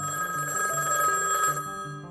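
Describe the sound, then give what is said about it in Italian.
A telephone rings continuously with a steady electronic tone that warbles between pitches throughout, heard alone without any voices. “Il telefono non smette mai di squillare.”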